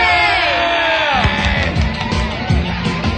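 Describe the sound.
An audience greets a band being introduced on stage with loud cheering. High whoops, yells and screams ring out at first, then shouting and clapping keep going at a strong level.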